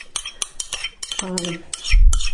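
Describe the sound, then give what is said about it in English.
A spoon scrapes and clinks against bowls as yogurt is moved from one bowl into another. Several sharp clinks, a brief ringing tone from the bowl and a low knock near the end. “I did not put the yogurt in a big enough bowl. I don't know what I was thinking. Okay, scraping the yogurt into the other bowl.”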